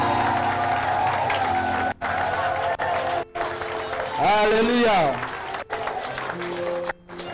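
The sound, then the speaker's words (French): Church audience clapping and cheering for the fathers during a French-language service, a loud, continuous din with a prominent voice calling out over it and a few abrupt breaks in the sound. “Acclamons les pères. Acclamons les pères, acclamons les pères. Plus fort les mamans, acclamons les papas.”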